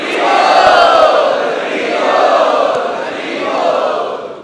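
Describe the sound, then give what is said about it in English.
Audience loudly chanting in welcome at an evening Prerna festival gathering: a sustained mass of voices that swells and eases in three broad waves, with no single speaker standing out. “Thanks for joining us this evening. Let us welcome all of them by loudly chanting.”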